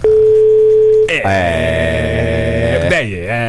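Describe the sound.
A steady telephone line tone holds at one even pitch for about a second, then cuts off as loud voiced sound with a shifting pitch takes over for the rest.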